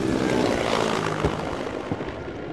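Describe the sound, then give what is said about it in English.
An Mi-17 helicopter flying low and close over a commando training assault, a loud continuous engine and rotor roar that eases slightly toward the end. “You just saw an Mi-17 getting pretty close. Flying aircraft over in a low fashion is called a show of force.”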